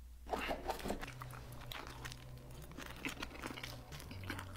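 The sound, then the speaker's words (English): Crunching, clicking eating sounds as a slice of pizza is eaten with a spoon in an ASMR food video, irregular sharp bursts over a low steady hum. “Struggling there a little bit to eat that pizza with a spoon.”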